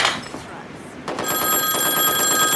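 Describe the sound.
A telephone bell rings in a film scene. The ringing starts about midway and stays steady and loud, after a stretch of background noise.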